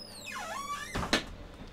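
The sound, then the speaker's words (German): A door being closed at a pizza vending machine, a faint squeaky glide that dips then rises in pitch, followed by two soft thuds as it shuts. “dann wir machen die Tür zu.”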